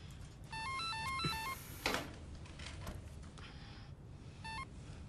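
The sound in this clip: An electronic telephone ringtone plays a short melodic run of bright, stepped beeping tones. A brief burst of the same tones returns near the end over steady background noise.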